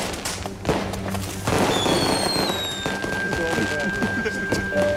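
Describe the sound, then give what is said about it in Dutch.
Fireworks go off during New Year's Eve celebrations: a run of sharp bangs and crackles, with thin high whistling streaks, while people talk throughout. “Vuurwerk.”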